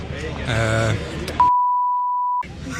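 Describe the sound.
A single steady, pure beep lasting about a second in a Danish TV interview cuts sharply into the talk and stops abruptly. Voices are heard before and after it.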